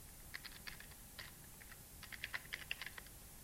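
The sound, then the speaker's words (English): Faint clicks of a computer keyboard as a student's name is typed, a few scattered keystrokes at first, then a quicker run of light taps. “there's an alternative one where you just type in, you know, their name.”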